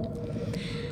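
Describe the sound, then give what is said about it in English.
Whales calling in long, drawn-out tonal moans, their layered harmonics sustained evenly while faint wet, squishy textures flicker above the steady drone. “This is the sound of whales.”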